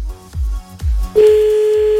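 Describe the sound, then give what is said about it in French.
A telephone line tone sounds as someone calls a person back. A few low, dull thumps come first, then a steady, unbroken mid-pitched tone holds alone to the end. “Attends, on va le rappeler, il avait l'air gentil.”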